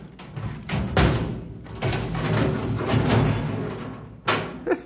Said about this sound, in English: I was about to shoot off the lock when you came. Well, carry on, Cal. Watch out for the ricochet. There, that should do it. Now let's get this box open.